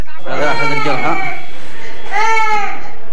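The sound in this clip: A child screams and cries in pain after an attack on the Al-Hazm reformatory in Yemen, two long, loud, wavering wails separated by a short pause.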